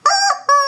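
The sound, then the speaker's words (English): A squawking pigeon novelty toy gives two loud, harsh, honking squawks with a brief dip between them. “So we'll see if the squawking pigeon catches on as much as the squawking chicken did.”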